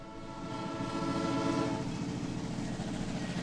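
A train sound effect: a rumbling train with a sustained horn-like tone through the first half, then a steady clattering rumble. It is fairly quiet, with no talk.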